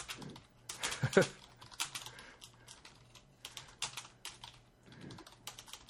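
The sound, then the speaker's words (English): Someone types on a computer keyboard, repeatedly typing and deleting. Irregular bursts of quiet clicking keystrokes alternate with short pauses throughout. “Damn it, I can't type tonight. You have to hear me type and delete shit over and over and over again.”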